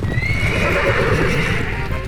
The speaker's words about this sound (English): And the horses took off.